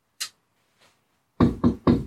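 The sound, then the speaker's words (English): Someone knocks on a barred door with three loud, heavy knocks in quick succession, preceded by a couple of fainter, sharper sounds. “Knock at the door.”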